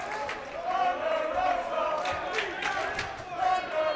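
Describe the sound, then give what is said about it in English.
A wrestling crowd chants for a new champion during a women's title match, with rhythmic, repeated voices rising and falling in a steady cadence over a general crowd roar. “Couple people chanting new champ. We got in new the champ, crowd. New champ,”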